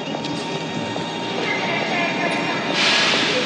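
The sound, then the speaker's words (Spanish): A metro train stands at an elevated station, a steady mechanical rumble and hum with faint rattles and squeaks, and a bright hissing burst rising near the end. “Su asesino es el primero en bajarse del metro y Sam sale tras él a paso ligero.”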